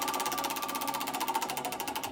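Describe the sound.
A prize wheel spinning at a game: rapid, evenly spaced ticking of the pointer against the pegs, loud and steady, with the clicks gradually spreading out as the wheel slows.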